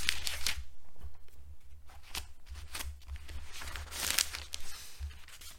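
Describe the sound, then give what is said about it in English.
Thin Bible pages being handled and turned, giving many crisp, papery rustles and swishes at a fairly soft level, with no talking. “So scared of tearing these pages.”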